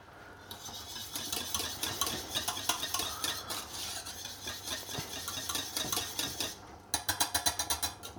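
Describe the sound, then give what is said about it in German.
A spoon stirs thickening béchamel sauce in a pot as it comes back to the boil. The faint scraping strokes come in a steady rhythm, then grow quicker and sharper toward the end. “Umrühren. Jetzt sollte das eigentlich gleich aufkochen wieder.”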